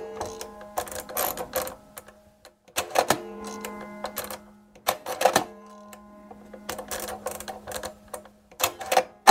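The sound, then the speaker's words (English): Mechanical clacking and clicking from an early hand-cranked encryption machine of the kind the United States used in World War II, encoding a message: irregular bursts of rattling keys and gears separated by short pauses, with no voices. “That is the sound of one of the early primitive encryption machines that countries used, in fact, the United States used in World War II.”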